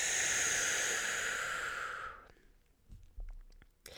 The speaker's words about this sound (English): just take a nice deep breath in and out.